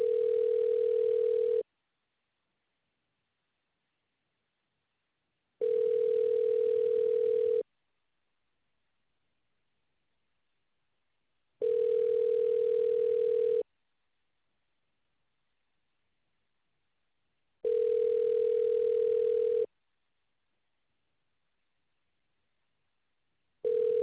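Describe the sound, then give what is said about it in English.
Ringback tone of a telephone call being transferred: a steady single-pitched tone sounding in two-second bursts separated by roughly four seconds of silence, four full rings and the start of a fifth, alone and even in level. “Okay, I'll get you transferred over. Thank you. All right, sending you now.”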